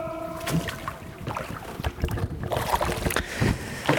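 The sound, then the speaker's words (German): Canoe gliding under a bridge on a canal in Lübbenau in the Spreewald, with irregular paddle splashes and sloshing water running throughout, steady and moderately loud, with no talk. “Guck mal, wir sind unter einer Brücke. Hört man das? Das hört man.”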